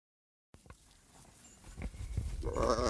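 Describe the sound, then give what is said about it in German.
A flock of about 700 sheep on a migratory herding route: a faint, rising murmur of bleats and movement that grows steadily louder toward the end. “So, jetzt sind wir hier bei den Schafen. 700 Stück, was für mich viel weniger aussieht.”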